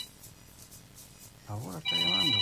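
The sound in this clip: A telephone ringing with a bright, melodic electronic ringtone that cuts in partway through. It comes in two loud bursts after a quiet, low opening.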